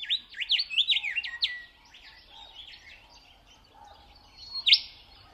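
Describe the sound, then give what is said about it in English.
A willy wagtail singing for its mate in the Australian outback: a bright, rapid run of high twittering chirps, then quieter notes and one sharp high call near the end. “This is a willy wagtail singing for its mate on the Australian outback.”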